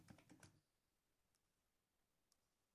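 A quick burst of typing on a computer keyboard as a search is entered: rapid keystrokes packed into the first half-second. Near-silence follows, broken by two faint isolated clicks.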